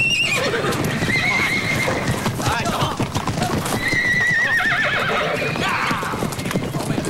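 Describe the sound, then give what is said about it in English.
Horses released from a ranch enclosure gallop in a dense, continuous rumble of hoofbeats, with two loud whinnies rising above it, one early and one midway through. “Right! You run these horses as far off frost land as daylight will take.”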